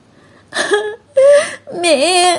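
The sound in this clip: A girl bursts into tears, crying aloud in three loud wailing sobs separated by short pauses. Her voice wavers up and down in pitch, and the last sob is the longest.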